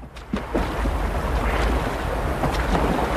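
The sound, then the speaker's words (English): Water swishing around a rowing boat on a river, a steady low wash with wind noise and a few soft splashes. “Terry is now rowing the boat, wearing his life jacket.”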